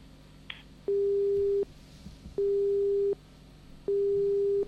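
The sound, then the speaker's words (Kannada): Telephone busy tone after a call is disconnected: three steady single-pitch beeps of equal length with even gaps between them, clear and fairly loud over faint background hiss. “ದೂರವಾಣಿ ಸಂಪರ್ಕದಲ್ಲಿ ಕಡಿತ ಉಂಟಾಗಿದೆ.”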